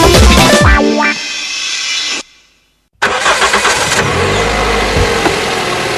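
A car engine starts after a short silence, catching abruptly into a loud, rough running sound with low rumbling surges. A different loud, dense passage comes before the pause.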